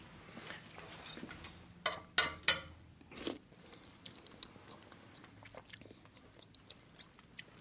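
Someone chews food tasted from a spoon, with many soft, moist crunches and clicks and a few sharper bites standing out early on. The sounds are faint and irregular.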